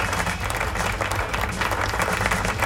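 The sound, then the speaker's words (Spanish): A crowd applauds in dense, continuous clapping that holds a steady loudness throughout, with a low rumble underneath. “Aplauso, aplauso, aplauso. Ahí están los aplausos.”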